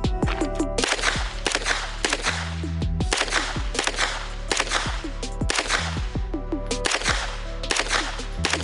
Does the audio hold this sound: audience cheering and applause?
no